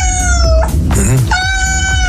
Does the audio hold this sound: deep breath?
no